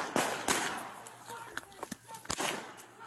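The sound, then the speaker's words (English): Gunshots fired at officers during a police confrontation at a door: a few sharp, loud bangs spread over a few seconds, with voices and other sounds between them. “Shots fired.”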